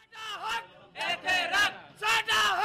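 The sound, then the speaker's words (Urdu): Blind protesters chant slogans outside the Punjab Assembly in Lahore. A crowd of voices shouts in three loud rhythmic bursts separated by brief pauses. “Lahore سے ہماری ساتھی شمائلہ جعفری کی report جو نعروں سے شروع ہوتی ہے.”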